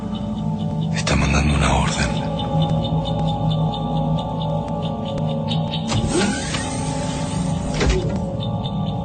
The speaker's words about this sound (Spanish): Se abre la escotilla e ingresa un hombre robot con una caja metálica.